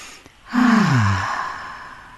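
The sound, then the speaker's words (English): A single deep breath let out as a long audible sigh, its voiced tone sliding downward, taken during a group relaxation exercise. “let's take a deep breath. Everybody just stop what you're doing, stop for a moment, and let's just take a breath”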